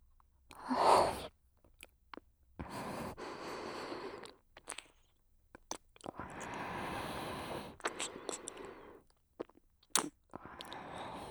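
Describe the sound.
Chewing as food is tasted: soft bursts of crunchy, moist mouth sounds come in a few spaced runs, with quiet gaps between them and no talking.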